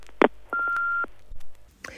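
Answering machine beep before a message: one steady, mid-pitched electronic tone lasting about half a second, clean and alone, preceded by a short click.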